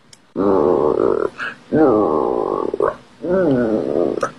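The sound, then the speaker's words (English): A voice imitates a bear's hungry stomach growling in a children's story, with three long, low, rumbling growls. Each one wavers in pitch and is separated by short pauses. “Bear's tummy is growling.”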